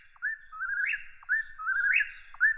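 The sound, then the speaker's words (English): A whippoorwill calls its name: a clear, rhythmic whistled phrase with a rising, swooping end, repeated three times in quick succession with the last cut short, alone against silence. “The whippoorwill will literally say its name.”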